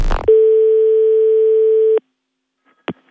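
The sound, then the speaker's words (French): A steady telephone tone from a call that was not properly hung up. A single sustained beep at one pitch lasts just under two seconds and stops abruptly, followed after a pause by a short click. “Allô? C'est pas une radio, ça? Je crois que vous n'avez pas très très bien raccroché, hein.”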